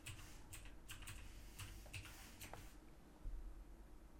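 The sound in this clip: Typing on a computer keyboard to enter a game search, a quick, faint burst of many light clicks that stops partway through, leaving quiet room hiss.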